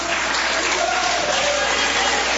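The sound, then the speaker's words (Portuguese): Church audience clapping and giving praise during a worship service, producing dense, continuous applause that stays loud and even throughout, with voices mingled into the clapping. “Pode bater palmas e dar glórias.”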